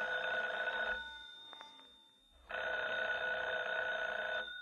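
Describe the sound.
A telephone rings in two long, steady bursts separated by a short silence, the bright trilling tone loud and alone with no voices.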